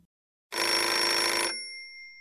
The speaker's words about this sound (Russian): Резко протрещал звонок стоявшего на столе телефона.